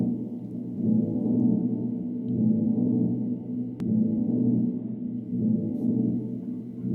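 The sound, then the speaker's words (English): Electric guitar played through an Earthquaker Dispatch Master delay and reverb pedal with the reverb turned up, so it no longer sounds like a guitar: a steady, washy wall of low and midrange sustained tones with slow gentle swells and no clear note attacks. “It doesn't even sound like a guitar anymore. No. I'm going to roll up with some reverb.”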